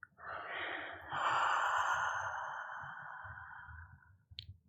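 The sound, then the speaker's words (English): A long exhale through the mouth with a breathy "ha" sound during a guided breathing exercise. The airy rush swells, holds for a few seconds and slowly fades, ending with a brief click. “Take a deep breath in. And breath out through the mouth with the sound ha.”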